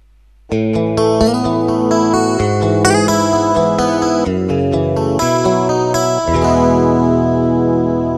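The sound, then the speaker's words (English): Electric guitar voice from a keyboard's preset buttons, heavily effected with distortion and chorus, plays a quick run of bright notes and chords before settling into a loud sustained chord, with no talking. “There's an electric guitar which sounds something like this.”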